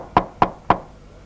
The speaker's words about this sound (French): Il toqua la porte.